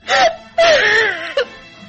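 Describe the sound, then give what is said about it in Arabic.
A woman crying in an Egyptian radio drama, two drawn-out wavering wails followed by a short catch of breath. “المرة دي مش بتغني زي زمان، المرة دي بتبكي. بص بص كويس انت تشوف دموعها.”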